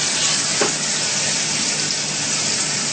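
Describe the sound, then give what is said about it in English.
Plantain frying in a pan until golden on both sides, a loud, steady hiss and crackle of sizzling oil that runs evenly throughout without any talking. “Fry it until it's golden, both sides.”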